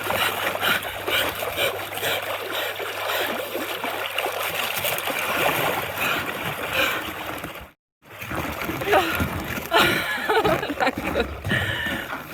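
Water splashes and sloshes as a person climbs out of a cold water hole, a continuous churning and trickling that drops out briefly partway through before resuming.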